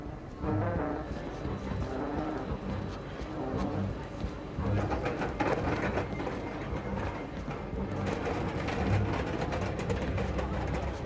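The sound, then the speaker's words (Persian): A departing train gives a steady, dense rumble that holds at an even loudness throughout, with faint tonal hums running through the noise. “قطار داره میره.”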